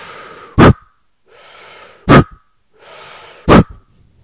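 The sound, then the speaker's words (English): Short, quick breaths as a breathing-exercise demonstration: three sharp, forceful puffs at an even pace, each preceded by softer, airy breathing. “Short breaths that look and sound just like this.”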